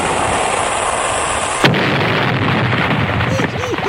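A cannon-fire sound effect: a steady hiss breaks into a single sharp, loud blast about midway, followed by a sustained rumbling roar.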